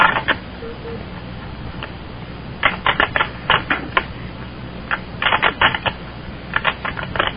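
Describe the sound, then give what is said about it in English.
Typewriter keys clack in several irregular bursts of sharp, rapid clicks separated by short pauses, with a few isolated strikes in between. “You are typing with your wiener, aren't you? You type with your wiener.”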